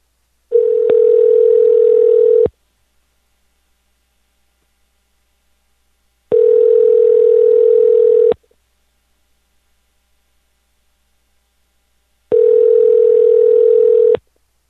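Ringback tone of an outgoing telephone call: three steady electronic tones of about two seconds each, separated by roughly four seconds of silence.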